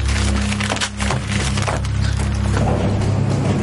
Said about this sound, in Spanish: rompe la carta y entra en el colegio